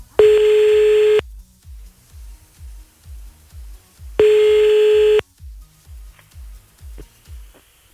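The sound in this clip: Telephone ringback tone during a redial, heard twice as steady bright tones about a second long each, with a gap between them, over a rhythmic low thumping beat.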